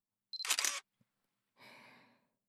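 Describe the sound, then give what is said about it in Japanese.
A camera shutter fires as a photo is taken: a sharp bright snap, then a tiny click and a softer, longer whirring rustle. “ほら、撮るよ。 はい、チーズ。”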